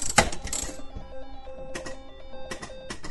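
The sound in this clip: Slot machine sound effect: bright, bell-like electronic chimes mixed with clinking, coin-like hits, with a few sharp bursts spread across the short jingle.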